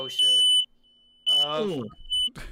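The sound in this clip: A smoke alarm gives high, piercing electronic beeps that repeat a few times while people talk over and between them.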